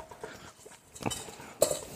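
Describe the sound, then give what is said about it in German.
A dough scraper scrapes melted chocolate couverture out of a pot, giving a few soft scraping strokes followed by one sharper metallic knock near the end. “Und dann hilft auch wirklich so ein Teigschaber oder so ein, ja, um auch wirklich die ganze Kuvertüre aus dem Topf mitzunehmen, auszukratzen und mit der Eimasse verbinden.”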